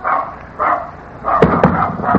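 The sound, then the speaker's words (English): A dog, called a war dog, barks in a tense confrontation, giving a few loud, harsh bursts with sharp cracks among them over steady background noise. “Get away, dog! Don't you come near me!”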